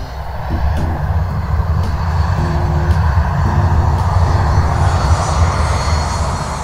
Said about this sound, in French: Soudain, un jet privé atterrit.